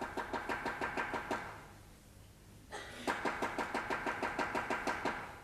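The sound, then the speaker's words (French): Rapid knocking on a door in a 1957 staging of Beaumarchais's Le Mariage de Figaro. Two runs of many evenly spaced, loud raps are separated by a pause of over a second. “Mais qui frappe ainsi chez moi?”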